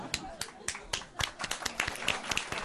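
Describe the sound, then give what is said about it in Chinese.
Scattered hand clapping from a small group: uneven, sharp claps, fairly faint and irregular in rhythm, with voices audible alongside. “唔使咁 嗰个掌声 诚恳咁样， 掌声雷动”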